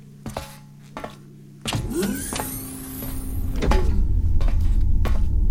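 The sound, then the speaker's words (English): Forward deck shields open on a spaceship. Two short mechanical clicks come first, then a sustained whirring hum starts with a brief rising sweep and grows steadily louder into a heavy rumble. “Forward deck shields opening.”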